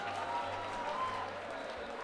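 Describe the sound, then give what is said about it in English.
Audience applause for a band called Strange Arrangement: a steady, full patter of many hands clapping at a moderate level, holding evenly throughout. “Hey, let's give a round of applause to our friend Strange Arrangement real quick.”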